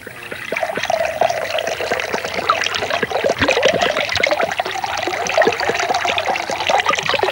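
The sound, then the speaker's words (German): Soda water pours into a glass in a steady, loud, bubbly trickle, with dense fizzing crackles running throughout and no talk. “Willst du was trinken? Soda Wasser. Ah, okay. Ich schenke dir was ein.”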